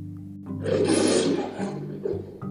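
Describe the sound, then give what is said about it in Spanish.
A lion roars in a single deep, rough burst that swells and then fades over about two seconds, with steady low tones underneath. “oyó aquellos rugidos y rápidamente corrió hacia el lugar de donde provenía el sonido. Ahí encontró al león, que había quedado atrapado en una red.”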